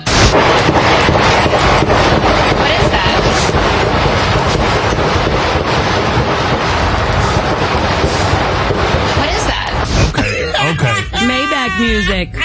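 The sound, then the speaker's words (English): Gunfire erupts near a news reporter, a dense stream of sharp cracks over heavy wind rumble, followed by a voice speaking at the end. “If shots are fired in your proximity, this is what you don't do.”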